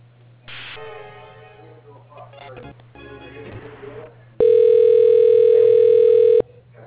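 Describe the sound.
Telephone line during a call transfer, with muffled line noise and faint clicks, then one long, steady, loud electronic tone lasting about two seconds that stops abruptly.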